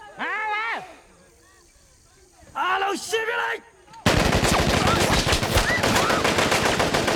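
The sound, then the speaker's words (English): Troops open fire on peasants: two loud shouted calls ring out, then a sustained, dense burst of rapid automatic gunfire runs without pause to the end. “At the soldier's command, the troops open fire and the peasants are shot down.”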